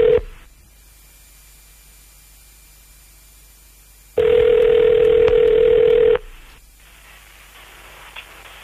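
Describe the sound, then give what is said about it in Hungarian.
Telephone tones on a call to the Kolibri Motel: a brief tone at the start, a quiet stretch, then a loud steady tone holding for about two seconds before faint line noise returns. “Hívjuk már is. Most hívjuk a Kolibri Motelt.”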